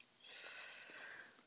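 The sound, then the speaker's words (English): A deep, audible breath drawn in before speaking: one long, airy inhale of about a second that stands alone with no talk over it. “Oh, every time I breathe like this, I'm about to disagree with you, right? I just realized, yeah, that's my tell.”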